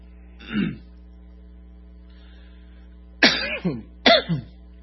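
A person clears their throat and coughs because something is caught in the throat, a few short, harsh bursts with a long pause before the last two close together, over a low steady electrical hum.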